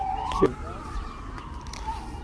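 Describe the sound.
An ambulance siren wails faintly through steady background noise, its tone gliding gradually downward over about two seconds as it passes.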